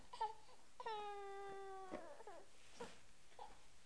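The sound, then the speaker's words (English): A fussy baby boy cries in a few short, quiet bursts. One longer wavering wail with a bright harmonic tone stands out among briefer whimpers, and no talking is heard. “No crying. No crying.”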